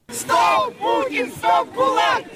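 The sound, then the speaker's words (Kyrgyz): Protesters at a Yekaterinburg rally commemorating Boris Nemtsov chant anti-Putin slogans. Many voices rise and drop together in loud, rhythmic bursts with short gaps between them. “Екатеринбургтагы митингдин катышуучулары токтот Путин, ГУЛАГга жол жок, Украина бизге душман эмес деп кыйкырып турушту.”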